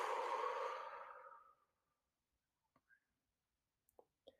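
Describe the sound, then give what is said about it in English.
One long, slow breath out, soft and airy, during a calming breathing exercise. It starts fairly full and fades away over about a second and a half, then gives way to near silence broken by a few faint clicks. “And then you breathe out.”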